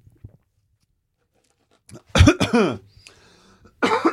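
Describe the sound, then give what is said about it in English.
Coughing from a person whose tea went down the wrong way after drinking too quickly: a few harsh, throaty coughs in short bursts, preceded by a faint, quiet throat sound. “Excuse me. Oh, a little bit of tea went down the wrong way. Because I drank it too quickly.”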